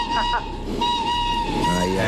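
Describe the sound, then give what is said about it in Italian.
A train whistle sounds over a rumbling background: two quick toots, then a longer steady blast at a fixed pitch, played as a mystery sound in a guessing game. “Sbagliato, era il fischio di un treno.”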